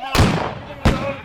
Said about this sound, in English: They heard the raucous sounds and several pistol shots.